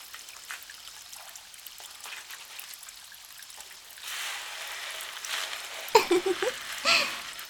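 Water trickles and splashes as a person's hair is washed, soft and steady at first, then growing louder and fuller partway through.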